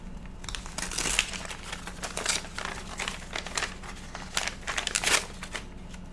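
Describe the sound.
Crinkling and tearing as a pack of sports trading cards is ripped open, a run of many sharp, papery crackles and rips over about six seconds with no talking.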